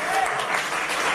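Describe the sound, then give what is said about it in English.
Audience applause after a remark about Uganda's independence: a brief burst of dense, steady clapping lasting about a second, evenly loud throughout. “We can clap for that.”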